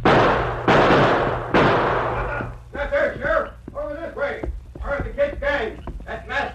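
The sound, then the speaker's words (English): Three sharp, loud gunshots ring out in quick succession in a western drama set in a frontier town, followed by voices talking. “Use your gun, Toto.”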